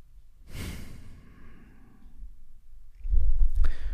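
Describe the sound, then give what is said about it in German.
Deep, slow breathing: a long airy exhale near the start, then softer breath noise and a louder, rougher breath at the end, alone without talk. “Wenn du möchtest, nimm noch ein, zwei tiefe Atemzüge.”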